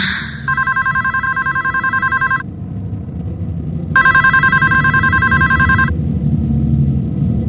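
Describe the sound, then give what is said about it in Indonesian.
An office telephone rings at one in the morning: two long, loud trilling bell rings of about two seconds each, separated by a pause, over a steady background hum. “telepon kantor berbunyi.”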